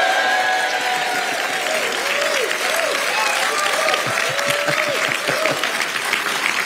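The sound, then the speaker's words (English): A live audience on stage at a literature festival applauds in a dense, continuous roar, with cheering and high whoops rising above the clapping. “So, as you may have worked out, we're in front of a live studio audience, as it were, who have gone above and beyond in cheering and whooping us into the next hour.”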